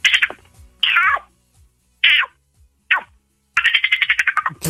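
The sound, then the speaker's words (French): A person's voice imitating a frog: four short, high, squeaky calls spaced apart, then a rapid pulsing trill of repeated squeaks. “Bah la grenouille, tiens. Donc la grenouille.”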